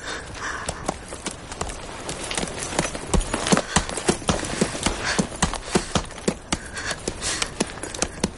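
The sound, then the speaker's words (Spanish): Rhythmic hoofbeats of a horse as a rider leaves on horseback, a steady clip-clop that becomes sharper and more distinct in the second half. “James se monta en el caballo y se acerca a él. Por favor. James se marcha dejándolo solo.”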